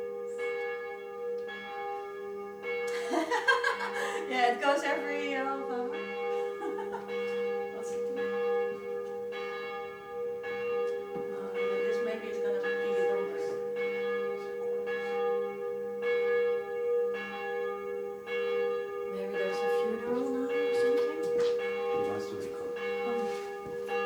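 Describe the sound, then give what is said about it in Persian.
A church bell rings on and on, its many strikes blending into a sustained, resonant wash of layered metallic tones that stays steady and fairly loud throughout. “چون زنگ کلیسا تو یه تایم های هست دیگه، همیشه نمیتونی ضبطش کنی”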